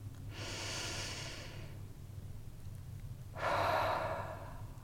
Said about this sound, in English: I invite you to join me in taking a breath.